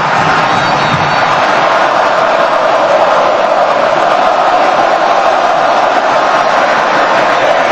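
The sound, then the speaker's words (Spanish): Colombian football fans roaring in a stadium during a match against Ghana, a loud, steady, unbroken crowd roar with no clear peaks or pauses throughout. “Y ahí está el público, súbale el volumen, Claudio Gutiérrez, al público colombiano”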